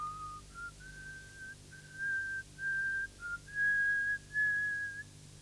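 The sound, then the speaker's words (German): A woman whistles a song on a lonely railway platform, the thin, trembling tune running as a string of short notes that climb gradually in pitch, over a steady low hum. “beginnt zu pfeifen, wie ein einsames Mädchen aus Langeweile vor sich hin pfeift.”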